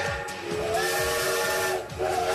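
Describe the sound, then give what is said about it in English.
A steam train's whistle sounds as one sustained, shrill, chord-like blast with a hiss of steam beneath it. It dips briefly near the end, then sounds again. “My friend, that is a steam train.”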